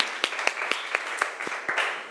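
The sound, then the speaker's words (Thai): Classroom applause for a student group's representative: quick, evenly spaced claps in a steady rhythm of about four per second, moderately faint and without talk. “เก่งมากค่ะเอาปรบมือให้ตัวแทนจากกลุ่มที่4ค่ะ”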